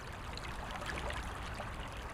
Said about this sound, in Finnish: Tässä on aika kova virta nyt mun mielestä